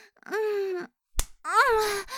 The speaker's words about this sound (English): Oh, how does my ass look? Riding this for you? Yeah? You want me to smack it?